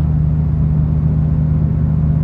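A car engine while driving gives a steady low rumbling hum with road noise, loud and even throughout, no voices or changes in pace.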